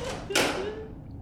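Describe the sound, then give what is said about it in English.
A door is shut with a single dull thud, one short knock set against a quiet, low background hum. “And he takes a step forward and shuts the door.”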